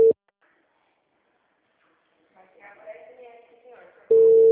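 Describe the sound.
Telephone ringback tone from an outgoing call, a steady mid-pitched electronic tone heard briefly at the start and again at the end, with faint talk in between.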